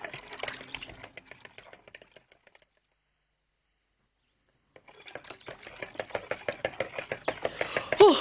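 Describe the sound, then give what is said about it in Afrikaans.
Sugar being stirred into one and a half cups of warm water makes rapid, rhythmic clinking taps. A burst of clicks comes first, then a stretch of silence, then steady tapping that grows gradually louder toward the end. “En dan 2 teelepels suiker. Lekker suiker. So ja, nou moet ons dit baie goed meng.”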